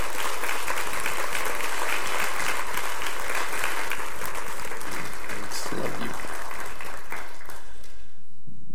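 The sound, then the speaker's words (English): Sustained audience applause welcoming a pastor to the stage during a church teaching series, dense and steady throughout before thinning out near the end. “So why don't you give him a, a warm welcome as he comes and shares the next part of this series.”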